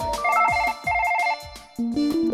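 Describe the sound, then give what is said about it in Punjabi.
A phone ringtone plays for an incoming call. It is an electronic melody of rapid repeated beeping notes in short phrases separated by brief gaps, ending with a stepped run of lower tones. “ਲੈ ਫੇਰ phone ਆ ਗਿਆ।”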